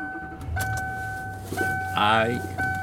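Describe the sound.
Car interior on the drive home, with a steady low engine rumble under repeated high electronic tones and a short burst of voice near the end.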